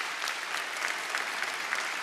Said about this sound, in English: You can clap for that.